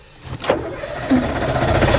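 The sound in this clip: A taxi's car engine starts as the cab sets off, a low rumble that swells up within the first half-second and then settles into a steady, moderate running drone.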